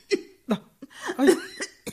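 A man playing a bumbling thief in a Malayalam radio drama coughs in a fit of several harsh, separate bursts. They come irregularly, some bunched together and some loose and almost laugh-like.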